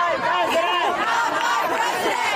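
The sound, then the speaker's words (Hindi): Crowd of mostly young protesters chanting slogans against Donald Trump near Trump Tower in Manhattan, New York: many voices in a sustained, continuous chant without pause. “Donald Trump के राष्ट्रपति पद के लिए चुनाव के खिलाफ नारे लगाते हुए इन प्रदर्शनकारियों में अधिकतर युवा हैं”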